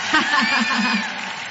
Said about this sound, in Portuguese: Uma salva de palmas para vocês!